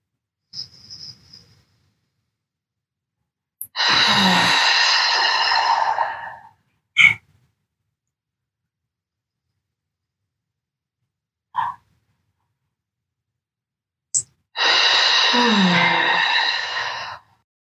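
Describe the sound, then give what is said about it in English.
Two long, breathy out-breaths through the mouth, each a loud sigh of a few seconds, during a guided deep-breathing exercise of in-breaths through the nose and audible out-breaths. The in-breaths are nearly silent, and a few short clicks fall between them. “So breathe in through your nose and an audible out breath through your mouth.”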